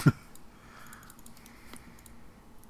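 A computer mouse or keys click a few times during an image search. One sharp click opens the sequence, and fainter ticks follow over a quiet background.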